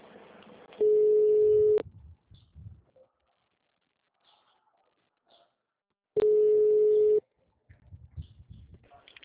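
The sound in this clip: Telephone tone heard after a dropped call: two steady, mid-pitched electronic tones, each about a second long, separated by a long gap filled with faint low rustling and scattered quiet noises.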